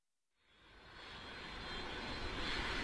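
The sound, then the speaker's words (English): Airplane engines roar at an airport in Portugal, a broad jet-like rush that rises out of silence over the first second, then holds loud and steady with no voices. “Well, here I am at the National Airport in Portugal”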